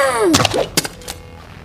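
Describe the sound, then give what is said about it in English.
A thrown pistol strikes someone: a falling whistle-like tone gives way to a few dull, hard thuds, with brief fainter knocks trailing off. “if the bullets didn't work, do you think throwing the pistol is gonna...”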